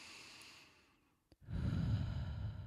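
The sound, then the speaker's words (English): Deep, slow breathing: a soft, airy breath fades into near silence, then a small click comes before a heavier, louder breath with a low rushing tone. “Just breathe deep with me.”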